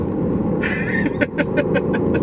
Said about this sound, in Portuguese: É, essa é a Audi RS6 Avante, é isso que ela é capaz.